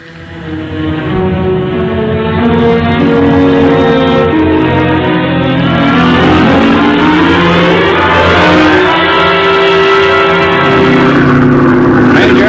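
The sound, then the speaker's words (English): Aircraft engines run just before the motors are cut to glide into a lagoon, giving a loud, steady, multi-toned droning hum with layered harmonics that swell and shift in pitch partway through. “I'm going to cut the motors and glide into that lagoon.”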